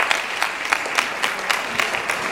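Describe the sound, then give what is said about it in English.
Steady applause from an audience honouring a school's first choir and its leaders, with dense, even clapping that holds at a constant level for the whole clip. “Okay, ladies and gentlemen, a round of applause, please.”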